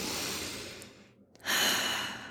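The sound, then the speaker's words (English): A deep breath in and out: a long, airy rush of breath, a brief quiet pause, then another loud, breathy rush that slowly fades. “So let's take a breath together.”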